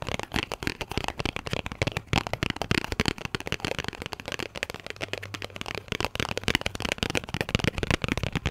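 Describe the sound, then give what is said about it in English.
Fingertips tapping on tarot cards in an ASMR setting, making a dense stream of rapid, crisp, crackly taps that continues steadily throughout at a moderate level. “Or tarot card tapping. Well, they do sound different.”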